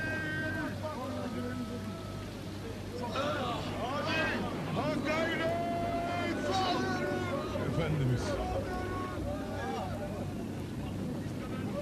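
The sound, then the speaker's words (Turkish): Big waves crash against a boat during a sudden storm, a loud, continuous wash of rushing water, with voices heard over the noise. “Büyük dalgalar tekneye çarpmaktadır. Öğrencilerse tekneyi korumak için ümitsizce çekilmektedirler.”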